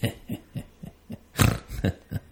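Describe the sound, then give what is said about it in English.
A person snorting in imitation of a pig, producing many short, rough nasal snorts in a quick, fairly regular series, with a louder, fuller snort near the middle and no speech. “Yeah, complete with a snort as well.”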